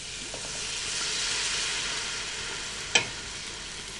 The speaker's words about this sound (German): Die Soße löschen wir jetzt mit ein bisschen Rotwein und Traubensaft ab.